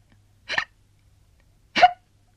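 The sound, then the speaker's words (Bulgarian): Two short hiccups from a person voicing a tortoise, separated by more than a second of near silence. “Кой въздиша? Аз съм костенурката и не въздишам, а хълцам.”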